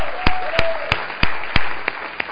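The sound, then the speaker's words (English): Applause welcoming a man home: seven loud, sharp claps evenly spaced about a third of a second apart over a steady background hiss. “Welcome home, man. Let's give Will a hand.”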